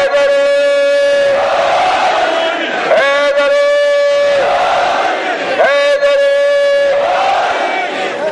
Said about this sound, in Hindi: एक दफा बुलंद आवाज में नारा है